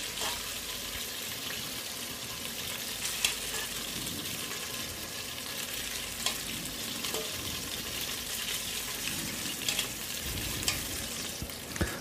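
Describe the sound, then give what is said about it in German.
Steady sizzling of meat browning in a frying pan, the first batch of a large quantity: a continuous soft hiss with scattered faint clicks and knocks, fairly quiet, with no talk. “So, und dann jetzt raus mit der ersten Fuhre. Die sind jetzt schön angebräunt, genau richtig.”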